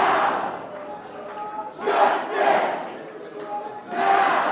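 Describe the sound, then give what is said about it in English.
Hundreds of protesters chant and sing inside the North Carolina General Assembly, outside the chamber doors. Massed voices swell in repeated loud surges with quieter dips between them. “That's the sound of hundreds of protesters inside the General Assembly.”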